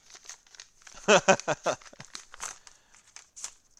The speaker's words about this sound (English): Oh man, this is a full sheet of paper here.